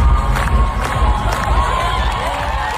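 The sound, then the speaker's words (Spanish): A crowd cheers on the steps of the Hungarian Parliament, urging the new health minister to dance: loud, continuous cheering and scattered high shouts that stay dense and even throughout. “El público aquí escuchamos que se lo pedía directamente que bailase el nuevo ministro de Sanidad en las escalinatas del Parlamento húngaro.”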